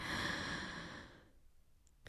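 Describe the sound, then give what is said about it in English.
One deep breath, heard as a long, breathy exhale like a sigh that fades out over about a second and leaves near silence. “now a deep breath”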